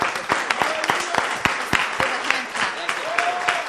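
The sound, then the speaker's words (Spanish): An audience applauding during a church worship service: steady crowd clapping with sharper, fairly regular claps standing out through its length, with some voices mixed into the noise. “Vamos a darle un fuerte aplauso al Señor.”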